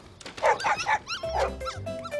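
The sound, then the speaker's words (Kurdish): A puppy barks in an animated cartoon, giving a few sharp, high-pitched yips in quick succession, followed by thin, whining squeaks. No other sound accompanies it. “دوو تووتکە سەگ و دایکەکەیانن. گوێ بگرە، ئەوە یەکێکیانە.”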